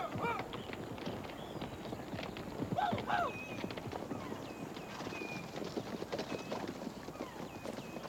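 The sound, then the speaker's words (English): Ponies' hooves clip-clopping as riders lead them away, a faint, steady stream of many hoofbeats that continues throughout. “He watches with the minister as the Brave leads the ponies back to the other Utes. They ride off with the ponies.”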